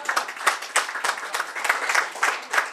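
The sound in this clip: Audience clapping during a live music performance to mark a singer's wedding anniversary: a short stretch of brisk, uneven claps with small bursts of emphasis.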